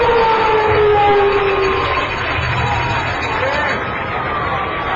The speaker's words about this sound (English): And the air raid sirens go off. A new bells and whistles here at the stadium.